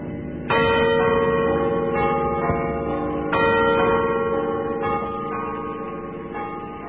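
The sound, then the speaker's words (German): Church bells ring from the tower of an old garrison church at Christmas 1940, with several loud, resonant strikes whose rich overlapping tones hum and decay between peals. “diese Glockenklänge über deutsches Land klingen lassen”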